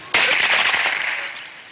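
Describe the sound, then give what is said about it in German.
A single gunshot at a duel in a film: one sharp, loud crack with a broad, rushing tail that fades gradually over about a second and a half. “Luis aus der Kutsche, eilt zu Fuß weiter und hört den ersten Schuss”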